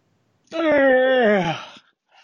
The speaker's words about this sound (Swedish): Ja, det blir många gäspningar nu för tiden.